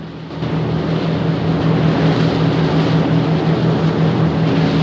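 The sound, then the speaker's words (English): Engines of two boats speeding through choppy water, a loud, steady, droning roar with a low humming undertone that stays constant from start to finish. “Two boats head off through choppy water.”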